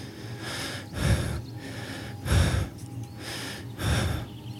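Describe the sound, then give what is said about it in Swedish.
Slow, airy breathing of a person lying in tall grass, with three deeper, louder breaths standing out at unhurried intervals over a soft, steady hiss. “jag lyssnar på mina egna andetag”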